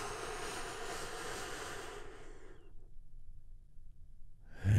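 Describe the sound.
A deep breath out makes a soft, broad, airy whoosh that fades to near silence partway through. Nothing else follows it except a brief low thump at the very end.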